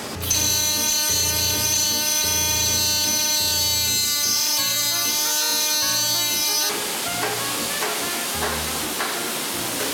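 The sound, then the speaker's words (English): A Yamaha high-tech engraving unit engraves a trumpet bell with a steady, piercing, buzzy mechanical whine. Low pulsing throbs repeat underneath, and partway through the tone turns rougher and noisier. “Have you ever wondered how the engraving ends up on the bell of a Yamaha trumpet? Most instrument manufacturers tend to stamp it on there, which compromises the quality of the metal. But at Yamaha, every single trumpet is treated with a high-tech engraving unit like this one.”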